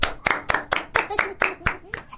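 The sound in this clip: Group applause as people clap for themselves, with steady, evenly spaced claps at about four per second across the whole stretch, each a sharp crack of similar loudness.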